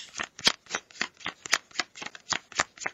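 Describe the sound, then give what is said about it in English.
Playing cards are dealt for a game of Go Fish: many crisp, quick card snaps and slides follow one another in a steady, brisk rhythm, alone and fairly soft. “Starting a new game of Go Fish on medium difficulty. Now dealing.”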